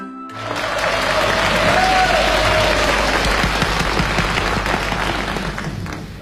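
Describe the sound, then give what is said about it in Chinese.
Audience applause at a Chinese crosstalk comedy performance swells quickly and holds at full strength for several seconds as dense, continuous clapping, then eases slightly near the end. “谢谢朋友们的掌声。”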